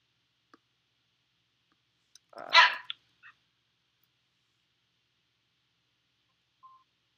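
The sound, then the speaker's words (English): A dog that wants to go outside gives one short, loud bark against near silence, with a few faint clicks and a brief beep around it. “Ginger's a funny dog. She's about 10 feet from me. And, I think she wants me to take her outside”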